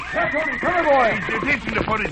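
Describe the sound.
A horse whinnies at a corral, a runaway horse in a cowboy scene, with a loud, quavering string of high calls that swoop up and down in pitch, mixed with speech.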